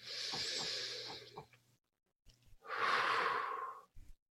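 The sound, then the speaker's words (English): Deep breathing during a guided tapping exercise: two long, airy breaths separated by a short pause, the second louder and fuller, with a few soft brief noises around them. “Take a deep breath.”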